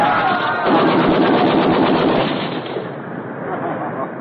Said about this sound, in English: machine gun. Go, go, shoot, Lieutenant. Shoot, Lieutenant. Shoot.